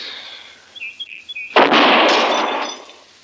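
A single loud rifle shot cracks out, fired while testing a recently repaired gun steadied on a fence rail. The sharp blast trails off into a long, slowly fading roar.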